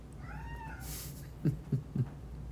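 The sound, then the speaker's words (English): A cat meows indoors at home: one fairly faint, drawn-out meow, followed by three short, low thuds in quick succession. “Hey, you're gonna need to put your cat outside.”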